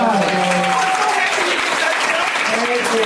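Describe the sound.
Audience applause, loud and steady clapping from a crowd that holds without a break for the whole stretch, with a voice talking over it.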